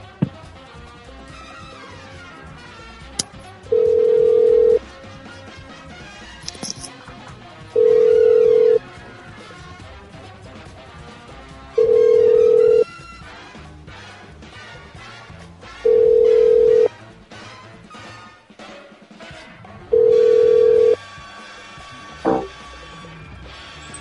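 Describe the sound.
Telephone ringback tone from a call to a motel that goes unanswered: five even, steady buzzing rings, each about a second long and evenly spaced, over continuous background sound.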